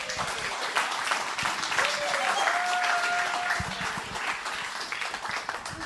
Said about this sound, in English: Please put your hands together as we welcome up Pastor Jace.